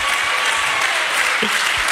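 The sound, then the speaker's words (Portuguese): Applause from an audience during a church service, dense continuous clapping that holds at a steady loud level for the whole stretch without a pause. “e as palmas para Jesus”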